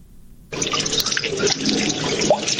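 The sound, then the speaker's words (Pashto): Water rushing into a man-made pond at Barmalani, piped in from about two kilometres away. A brief quiet opening gives way to a sudden, loud, steady splashing rush that holds evenly to the end. “د اوبو دا شور په برملانی کې موجود جوړ شوی تالاب دی.”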